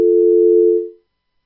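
A steady telephone tone after a dropped call: one loud, even, mid-pitched beep held for nearly a second before fading out into silence.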